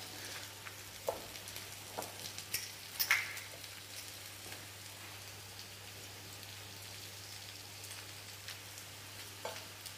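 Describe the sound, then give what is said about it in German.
Fish frying skin side down in olive oil, seasoned with salt and pepper: a faint, steady sizzle with scattered small pops and crackles throughout, with no voices. “Und braten den halt im Prinzip wirklich nur auf der Hautseite an.”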